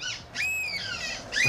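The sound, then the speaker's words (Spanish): A human voice imitates seagull calls with high, nasal, wailing cries of wavering pitch, repeated in a few drawn-out calls at moderate loudness. “Esos son humanos imitando a gaviotas.”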